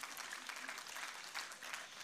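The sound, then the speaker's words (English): An audience in church applauds, a steady, dense patter of many hands clapping, fairly faint, for the whole short stretch. “So let's applaud the Lord.”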